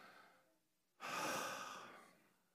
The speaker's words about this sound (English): Just everybody just take a deep breath. Okay, one more. Deep breath.